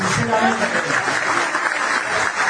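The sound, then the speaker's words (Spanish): Audience applause for a municipal staff team during a public address, a dense, steady wash of clapping that holds for the whole clip with some voices mixed in near the start. “quiero que todos le demos un muy fuerte aplauso.”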